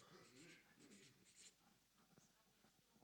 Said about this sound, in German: Ich schreibe.